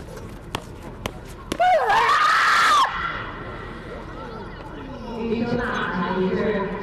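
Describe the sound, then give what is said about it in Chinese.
An athlete's shout rings out during his final, sixth throw at an athletics competition: one long, loud cry that rises and then falls in pitch, followed by a low crowd murmur. “一声呐喊结束了他的最后一掷”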